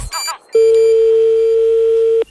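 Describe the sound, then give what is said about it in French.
A long, steady telephone tone at one unchanging pitch sounds as a call is placed to the police, cut off cleanly at the end. A short burst of other sound comes just before it. “Alors maintenant, j'appelle la gendarmerie”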